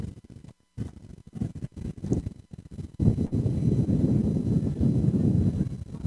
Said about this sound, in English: Wind picking up here as well at Hare Baker Field.